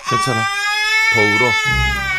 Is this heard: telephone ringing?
no